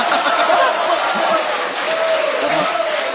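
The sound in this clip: Audience applause at a comedy show, a steady, dense clatter of many hands with voices audible over it.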